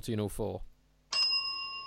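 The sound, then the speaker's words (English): A synthetic bell sound effect gives one bright electronic ding that rings on steadily, following a short burst of talk. “No, I haven't got my bell ready, but I do have a synthetic bell, so fire away.”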